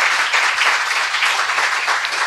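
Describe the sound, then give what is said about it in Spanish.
Applause from an audience at the close of a literary conversation: a steady, dense wash of many hands clapping, holding an even loudness from start to finish with no voices over it. “Un aplauso.”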